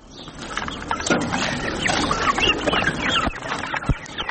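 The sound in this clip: Chickens clucking at a home where rabbits and pigeons are also kept, a busy run of short, overlapping clucks and calls at moderate level.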